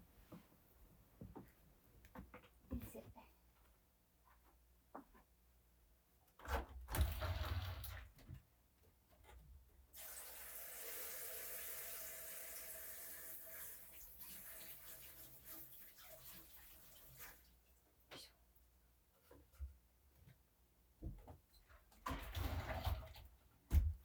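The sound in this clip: Water runs from a tap into a sink while something is washed, a steady soft hiss lasting several seconds, with quieter handling knocks and clatter before and after.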